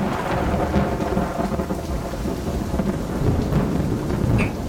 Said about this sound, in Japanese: でもまた今の落雷すごかったね。一瞬都内全体が停電したんじゃない？